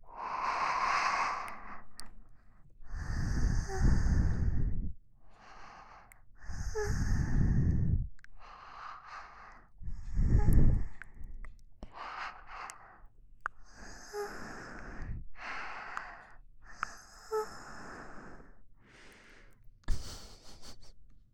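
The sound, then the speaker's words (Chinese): Heavy panting breath: a long run of loud, breathy exhalations and sighs in an uneven rhythm, with short pauses between the gasps and no talk. “听着喘息声”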